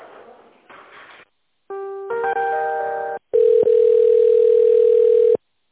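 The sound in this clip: Telephone line tones while a call is being transferred: after a couple of short noisy bursts, a stepped series of electronic tones sounds, followed by a long, loud, steady tone that cuts off abruptly.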